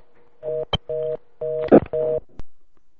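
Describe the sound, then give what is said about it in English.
Telephone keypad tones as a number is dialed, with four steady, even beeps separated by short gaps and sharp clicks. “I dialed the right number.”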